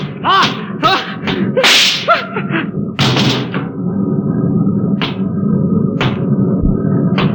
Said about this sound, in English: I'll give you three, Watson, then I shoot. I don't know what you're doing. I'm going to stop the ship. One, two,